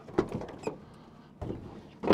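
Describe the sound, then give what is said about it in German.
A van's sliding side door is opened at a bulky-waste drop-off: a few faint clacks and a soft rolling rumble, then a louder thud at the end. “Wir können einmal Seitentür aufmachen.”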